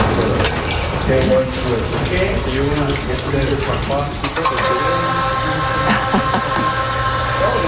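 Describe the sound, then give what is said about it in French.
Running water pours steadily during monthly wall maintenance, joined by the mechanical drone of an aerial lift platform; a steady tonal hum enters about midway and continues under the loud rush. “Alors, on entend de l'eau qui coule, ouais. Mais on entend un bruit mécanique oui. aussi. Alors, c'est la nacelle.”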